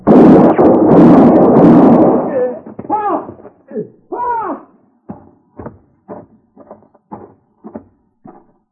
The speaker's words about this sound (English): You saw what happened, Jeter. I had to shoot him.